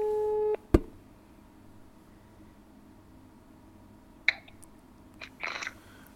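Telephone line tone as a call is placed: a steady electronic tone holds for about half a second, then cuts off with a sharp click, followed by a few faint clicks over quiet line hiss.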